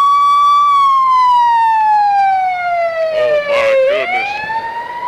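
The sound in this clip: An ambulance siren wails loudly and steadily, its tone sliding slowly downward before swinging back upward near the end, with faint noise beneath.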